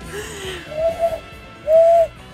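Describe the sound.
A human voice imitates a pigeon cooing with two clear, steady hooting tones, the second louder and longer, over a faint background hum.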